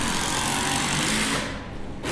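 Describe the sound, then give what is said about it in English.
A power driver whirs as a four-and-a-half screw is driven into cedar wood. Its steady, high buzzing motor briefly slackens near the end, then picks up again. “She's screwing the... it's an actually four and a half high screw that she's screwing into the cedar log.”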